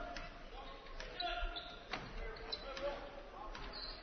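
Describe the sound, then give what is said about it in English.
A basketball is dribbled during a game, giving several sharp, quiet bounces at an uneven pace. The bounces sit under crowd noise and talk. “Now with the dribble goes left side.”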